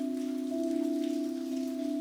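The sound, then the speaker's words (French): Rain falling as a steady, even hiss with no distinct drops, joined by a constant low hum that holds throughout. “Et soudain, on a eu la pluie.”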